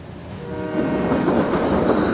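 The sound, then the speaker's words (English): Passenger train moving out of a station, a steady low rumble and rattle that grows louder after the first second and then holds at an even level. “It looks like the train station is moving. It's really the train that's moving”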